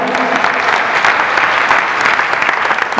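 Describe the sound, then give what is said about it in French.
Church audience applauding and acclaiming God during a French-language prayer service: loud, dense, steady clapping from many people with no pauses. “Est-ce que tu peux acclamer Dieu pour ta vie Alléluia.”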